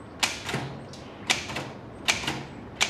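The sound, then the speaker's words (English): Typewriter keys strike paper as words are typed. Sparse, irregular clacks with a few sharper, louder strikes are spaced across the short stretch. “More words are typed onto paper.”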